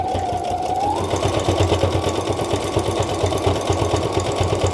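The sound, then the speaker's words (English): A sewing machine stitches slowly through several layers of glued material, giving a steady, rapid mechanical chatter that runs throughout at an even pace. “You could just glue this too, but I kind of like the look of the sewing too. Probably white string would look best on this one, but oh well, that's what we had in the machine.”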